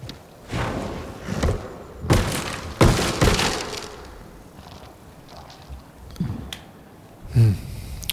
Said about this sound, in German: Einen leeren Raum mit einer kaputten Glasscheibe unten, die ich ja eben gerade runtergeworfen habe.